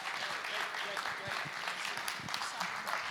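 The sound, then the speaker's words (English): Audience applause welcoming a guest at a morning gathering, a steady wash of clapping that stays dense and even from start to finish, with voices mixed in. “would you stand on your feet, because we want to honor, and put your hands together and welcome Louise this morning”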